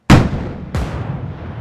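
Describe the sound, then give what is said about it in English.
Two heavy booms from a warship turret's large twin-barreled cannon firing on a lifeboat, which explodes. The booms are loud and sharp, about 0.7 seconds apart, and each trails off into a rumbling decay. “Tanguy's lifeboat exploded into a million pieces”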